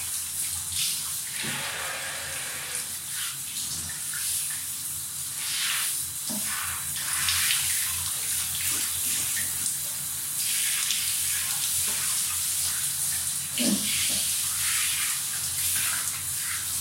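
Running water rinsing the body while bathing, washing off a heavily applied substance from the chest and back; a steady, full hiss of flowing water that continues throughout, with a few brief splashy changes as the water strikes the skin.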